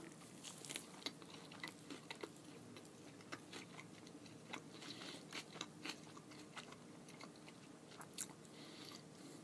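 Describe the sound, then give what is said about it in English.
Biting into and chewing an Impossible Whopper burger: many faint, soft, crisp clicks and crunches in an uneven rhythm, with no talking. “Smell test of the Whopper. Impossible. Pretty close. Here we go. I'm going to take a bite.”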